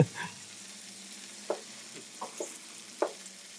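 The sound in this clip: Eggs frying in a pan give off a steady sizzling hiss, with a few sharp crackles and pops breaking through at intervals. No one speaks.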